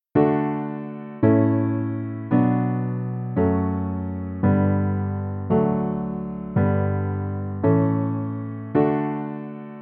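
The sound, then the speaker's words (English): Nine sustained piano-like chords play the basic form of a famous baroque canon's chord progression. They sound at an even, slow pace, each struck cleanly and slowly fading before the next, with no voices. “If we break this progression down to the most basic version, Pachelbel's canon sounds like this.”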